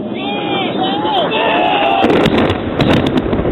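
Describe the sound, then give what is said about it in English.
Bombs whistle as they drop on Mazdrak during British Army operations, giving high falling notes over a steady roar, then a dense burst of crackling, rumbling explosions that stays loud to the end. “Oh, 040 Alpha, confirm that's bombs dropping on Mazdrak.”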